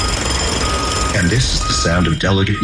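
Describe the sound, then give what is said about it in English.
Reversing beeps from machinery paving over open space, a steady high electronic tone pulsing under a voice speaking, with a heavy truck-like rumble beneath. “These are the sounds of a tree being cut down and open space being paved over.”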